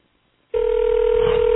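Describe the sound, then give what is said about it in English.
A telephone rings on the caller's end as one steady, loud electronic tone that starts abruptly after a short silence and holds unbroken to the end. “Two ringy dingies. That would be three ringy dingies.”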